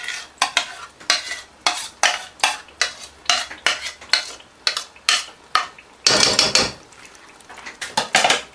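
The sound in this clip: Yogurt being stirred into a spice masala in a pan: many rhythmic scraping and clinking utensil strokes in a steady back-and-forth pattern, fairly loud, with no talking.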